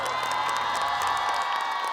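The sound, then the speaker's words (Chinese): Audience applause and cheering for a dance performer on a dance show. A steady, fairly faint wash of crowd noise carries scattered shouts and whoops. “好，谢谢，来掌声给姚亮。”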